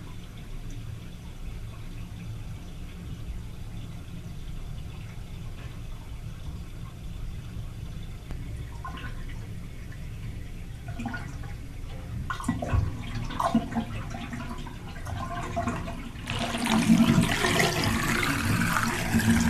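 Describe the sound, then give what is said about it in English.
A bathtub draining gives a low, steady watery rush with scattered gurgles and drips. The sound grows louder and busier near the end as the water sucks down the drain. “Bathtub being drained.”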